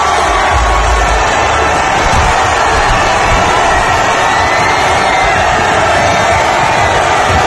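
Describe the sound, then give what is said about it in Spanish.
Arsenal football fans in London celebrating winning the Premier League title: a loud, dense, unbroken roar of cheering, whooping and shouting voices that never pauses. “Este es el sonido de la celebración del Arsenal hoy en Londres.”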